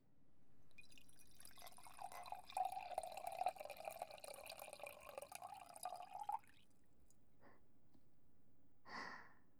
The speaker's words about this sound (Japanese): 注いでいくね。